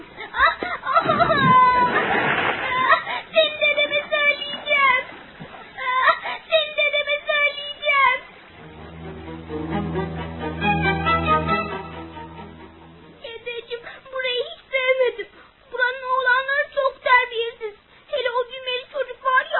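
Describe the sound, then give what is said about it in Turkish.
A girl cries in a radio drama with whimpering, sobbing vocal bursts broken by short pauses. A longer, lower, drawn-out wail comes midway, and the crying stays fairly loud throughout. “Hele kızım dur, ağlamayı kes.”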